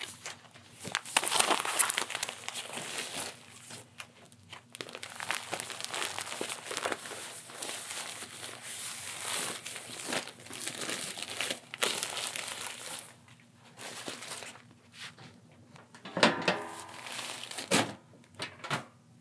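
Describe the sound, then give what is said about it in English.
An old diaper being crumpled and tossed out: long stretches of loud, crinkly plastic crumpling and rustling, irregular throughout, easing briefly before a final burst of handling noise. “hang tight just for a second while I toss this old diaper out.”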